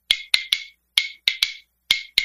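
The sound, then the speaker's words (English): Bones played to mimic a snare drum, eight sharp, bright clicks in an uneven rhythm, each crisp attack followed by a short rattling decay, with near silence between strokes. “I was trying to get a sound of like a snare drum, where you get like”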